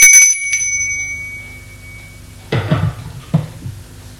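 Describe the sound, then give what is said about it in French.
A doorbell rings at a home: two bright, ringing chimes at the start slowly fade out, then a couple of dull thuds follow after a quiet pause. “Le commissaire sonne chez Rambert.”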